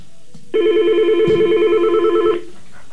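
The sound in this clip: A telephone rings with one loud electronic burst of rapidly warbling tone lasting almost two seconds, preceded and followed by a quiet background hum.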